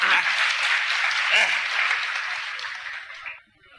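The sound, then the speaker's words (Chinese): Steady audience applause fills about three and a half seconds with a voice briefly audible underneath, then fades out quickly near the end. “各位鼓鼓掌，让他来了。”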